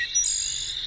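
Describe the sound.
Wood thrush song, a brief phrase of high, clear, flutelike tones sung alone over a faint background.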